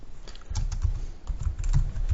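Computer keys clack as a post title is typed: a quick, irregular run of many crisp keystrokes with a brief lull partway through and no talking.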